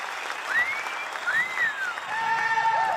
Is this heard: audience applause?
yes